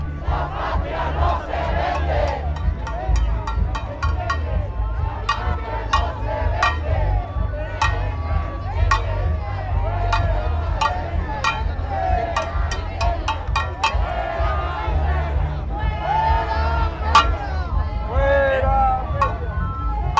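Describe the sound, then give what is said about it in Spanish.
A protest march crowd chants against Enrique Peña Nieto. Massed voices carry over a low rumble, punctuated by many sharp percussive hits. “Así que escuchemos un poco de la atmósfera sonora de lo que ocurre en esta movilización.”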